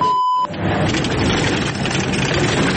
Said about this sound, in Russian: военный «Хаммер» на всех парах залетает в ночной Покровск, почти не сбавляя скорости на поворотах. Сквозь визг колес и рев мотора,